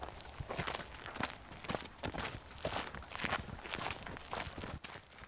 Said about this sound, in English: Okay, so we've walked down the track a little bit further now